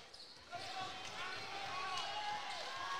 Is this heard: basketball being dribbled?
yes